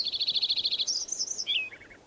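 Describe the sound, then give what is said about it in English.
Lincoln's sparrow song: a quick run of about a dozen bright, buzzy notes at a steady high pitch, then a higher warbled phrase, ending with a short drop to a few lower notes, faint and alone. “Lincoln Sparrow number 3.”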